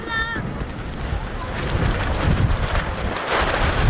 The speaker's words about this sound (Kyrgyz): Удурган шамал жападан жалгыз башпаана эсептелген түркүн түстөгү чатырларды далбактатып учуруп кетчүдөй туюлат.